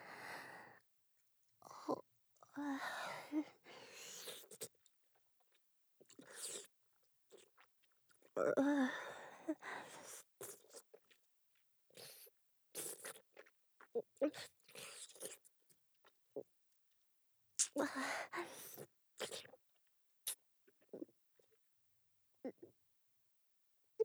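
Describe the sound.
Someone chews and eats food with a white residue, producing irregular crunchy bites and wet mastication sounds broken by short pauses and breaths.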